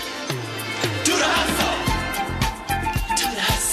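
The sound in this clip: Upbeat theme song opening a workplace talk show, with deep bass notes, bright tonal layers and a punchy rhythm of sharp percussive hits driving forward at a loud, steady level.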